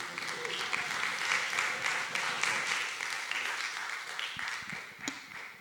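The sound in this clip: An audience in Providencia applauds to welcome a speaker, a full, steady wash of clapping with a few louder claps popping out near the end.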